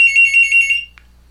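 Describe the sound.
An incoming telephone call rings at a news radio program: one high, warbling electronic trill of rapid pulses lasting under a second, followed by a brief faint chirp, then quiet.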